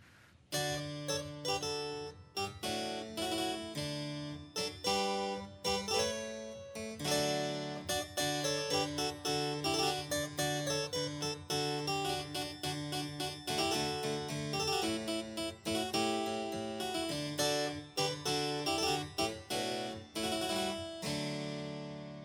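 Solo harpsichord playing a verse, a dense run of bright plucked notes in a steady, lilting rhythm, with chords and melody interwoven. The instrument sounds quiet and delicate, with no voices or other instruments.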